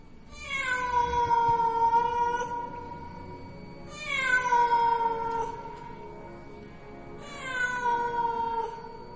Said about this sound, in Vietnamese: ấy thế nào mà tiếng mèo hoang nó kêu lên thảm thiết.